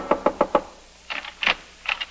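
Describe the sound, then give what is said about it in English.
Frantic knocking on an apartment door: four quick, evenly spaced knocks, loud and alone, followed by fainter scattered sounds. “We find Anne frantically knocking on Jeff's door.”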